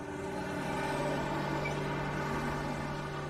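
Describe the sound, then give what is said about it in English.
An 18-wheeler truck driving on a highway at night, heard as a steady low engine drone with a constant humming tone that stays even and unbroken throughout. “Headlights move through the darkness. The 18-wheeler drives under the stars.”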